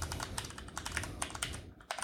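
A new password is typed into a Linux terminal running inside Windows, giving a fast, even run of many light computer keyboard clicks. The clicks are fairly soft, with a short pause near the end, and no one speaks.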